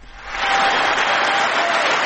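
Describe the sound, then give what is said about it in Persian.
Applause fills the US Congress before the president's annual address. A dense, steady wash of clapping swells in after a brief quiet start and holds loud and even to the end. “تشویق جو بایدن رئیس جمهوری آمریکا در کنگره این کشور قبل از سخنرانی سالانه‌اش”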